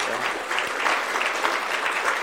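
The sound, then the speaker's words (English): An audience applauds: dense, steady clapping that stays at a fairly even, moderately loud level from start to finish, with no single claps standing out. “And so yeah, you can cheer for him. That's okay.”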